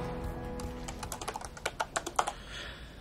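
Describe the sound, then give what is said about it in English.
Keystrokes on a computer keyboard: a quick run of many crisp taps that grows louder toward the end, then stops, with no voices. “Clay types on Sean's computer.”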